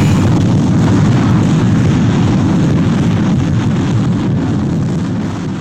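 Retro rockets fire in a science fiction sound effect, a loud, dense, steady roar heavy in low rumble that holds throughout and eases slightly at the end.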